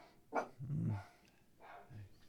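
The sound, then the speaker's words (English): A dog barking faintly indoors, a few short, soft barks and low, growly vocal bursts spread over about two seconds. “We got Gemma, the wonder dog, in here. She's making her presence known.”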